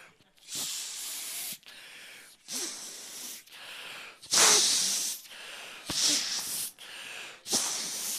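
A person blowing up an inflatable by mouth: many forceful, hissing breaths pushed out in steady bursts, each separated by a short gap for air, with no talk.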